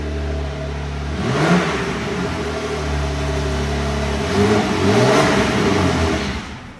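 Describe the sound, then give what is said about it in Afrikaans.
A Porsche 550 sports car engine drones loudly and steadily at a garage in Franschhoek, swelling in two revs whose pitch climbs and then settles back. “Dis die klanke van 'n Porsche 550 WP waaroor ons nou-nou sal gesels”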